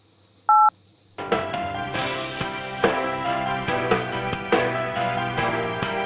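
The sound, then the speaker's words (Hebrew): A telephone keypad tone as zero is dialed: one short, bright dual-tone beep, followed after a brief pause by a continuous tonal melody with regular pulses. “בוא נקיש אפס, אני יודע מה יכול להיות.”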